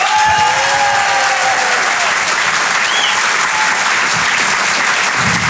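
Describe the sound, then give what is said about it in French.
Loud, continuous applause from an audience at a stand-up comedy show as a comedian is welcomed to the stage, a dense clapping wash that lasts throughout with some crowd noise mixed in. “Je vous demande de l'encourager très chaleureusement et de faire un maximum de bruit s'il vous plaît pour Thomas Marty.”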